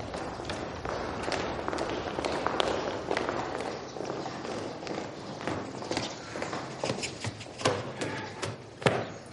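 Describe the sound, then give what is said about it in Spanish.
Footsteps of several people crossing the courtyard of the Palacio de Guadalmedina in summer: many overlapping steps at a moderate level, forming a dense, continuous shuffle without clear gaps. “Diego cruza el patio del Palacio de Guadalmedina seguido de varios sirvientes.”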